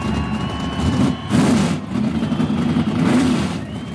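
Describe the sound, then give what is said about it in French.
A Formula 1 racing car engine runs in the Tyrrell pit garage in 1973, loud and steady with a low mechanical drone that swells in a couple of revs as the pitch climbs, then settles back. “François Sauvert se glisse sur le siège moulé de sa Formule 1. Son mécanicien titré, Joe Ramirez, enclenche la procédure de démarrage du moteur”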